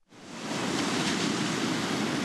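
Ocean waves crash at sunrise on the Oregon coast at a rocky bay with tide pools. A dense, steady roar of surf swells in quickly and holds as a continuous wash of noise, with no separate breaks standing out.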